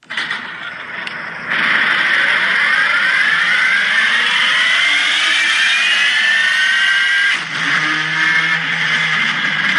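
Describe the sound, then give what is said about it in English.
Hybrid Le Mans race car at the 24-hour race: a loud electric-motor whine climbs steadily in pitch, then dips briefly near the end as the petrol engine takes over with a lower, rougher tone. “This is the hybrid Le Mans car that has an electric motor and a petrol motor, and it's the electric motor that starts.”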